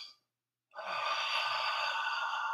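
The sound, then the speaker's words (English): A deep belly breath used as a vocal warm-up: a faint, brief intake fades into silence, then a long, steady whispered "ah" exhale carries on evenly at a soft level. “it's a very powerful breath in and then a slow, what we call whispered ah out. So it sounds like this, if you can hear it.”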